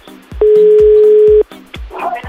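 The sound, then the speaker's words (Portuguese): A telephone call is dialed: one steady, loud tone holds for about a second, set among a series of short, regular clicks. A busier, softer stretch of sound follows near the end. “E ele quer ligar pra Lucimar, vamos lá.”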